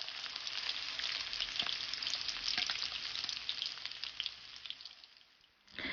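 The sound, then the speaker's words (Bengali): Chicken pieces sizzle and crackle steadily in hot oil in a frying pan, a loud, dense hiss with scattered pops that runs throughout before easing briefly near the end. “মুরগির মাংস নামিয়ে নেওয়ার ঠিক আগে আগে তেলের তাপমাত্রা বাড়িয়ে 170 ডিগ্রি করে নিন।”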